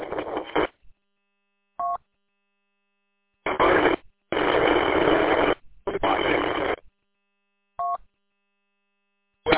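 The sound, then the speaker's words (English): Harsh bursts of static cut in and out between stretches of silence, several blocks of band-limited noise, with two short tonal blips between them. “Who or what that was, but that was just a couple of bursts of static and possibly some human voice mixed in.”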